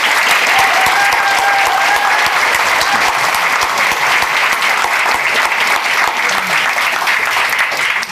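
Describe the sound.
Loud, steady applause fills the hall as an audience at the NAC welcomes the creator and composer of the musical The Wrong Son to the stage, dense clapping sustained without a break.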